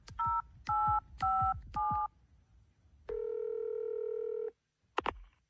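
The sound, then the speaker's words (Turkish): Telephone keypad tones from a call to an ambulance: four short, evenly spaced dialing beeps, then a longer steady tone and a brief click at the end. “Şimdi ambulansı arıyorum.”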